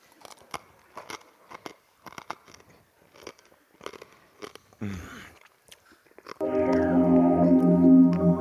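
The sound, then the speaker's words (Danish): Someone eats a snail, making many small crunches and wet clicks of chewing in an irregular rhythm. Music then swells in and stays loud to the end. “Og så lukker jeg øjnene og lader den falde ned i munden. Jeg spiser den simpelthen.”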